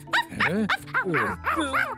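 A dog yipping and whimpering in an unbroken run of high, whiny cries that bend up and down in pitch for about two seconds.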